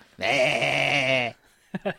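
Goat bleating: one long, wavering, nasal bleat lasting about a second, followed after a pause by two brief, clipped sounds.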